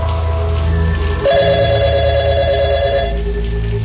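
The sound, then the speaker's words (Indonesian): An office telephone rings: a steady electronic ring tone sounds for about two seconds over a constant low hum. “Telepon di kantorku ini memang paralel. Jadi siapa saja bisa menelponku ke sini.”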